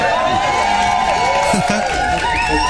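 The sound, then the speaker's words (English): A comedy venue audience cheers and shouts in a dense, sustained roar of many voices that holds steady and loud for the whole clip. “Well, you're doing a good job because it sounds like there's more than 8 people. Oh, there it is. We've had a wonderful reception.”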